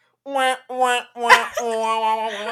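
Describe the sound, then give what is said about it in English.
An unhappy dog close up, giving a few drawn-out whining, grumbling vocal sounds in separate bursts, the last one held longer and steady. “Today, my dog is a little bit closer to the mic than normal. He's not happy because you have your hand on him. No, he's not happy because we're being loud in front of him”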